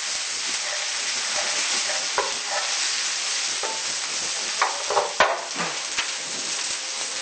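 Food sizzling as it browns in a pan, a dense, steady crackling hiss of hot oil with a few sharper pops and light scraping clicks from stirring.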